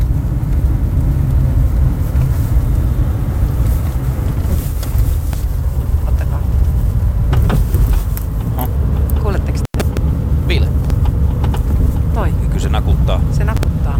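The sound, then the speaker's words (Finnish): A car's rear axle gives off an intermittent clunking rattle while driving, with short knocks coming more often toward the end as it goes over bumps, beneath a constant rumble of road and wind noise. “Niin tää on nyt sitten tänään äänitetty mun autosta, niin toi kolina, mikä tuolta kuuluu, niin mitä tapahtuu, auttakaa.”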